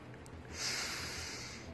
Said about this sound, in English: First, we will breathe.